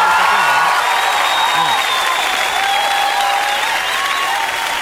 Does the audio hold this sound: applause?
yes